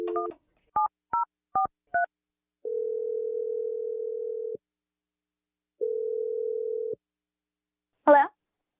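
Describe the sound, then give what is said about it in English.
Touch-tone keypad beeps as a telephone number is dialed: several quick, short tones of different pitches, then two long, steady ringback tones separated by silence, with a brief voice-like burst at the end. “All right. Here we go. I'm going to dial the number right now.”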